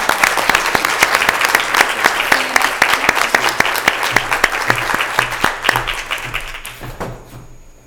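Audience applause at a school board meeting, crisp individual claps blending into a steady patter that gradually thins and fades away at the end.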